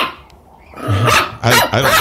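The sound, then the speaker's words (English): An upset dog barks inside a radio studio: three sharp, loud barks in quick succession after a quiet moment, the later two coming close together. “She left her dog in here with me. He seems to be rather upset. Down boy.”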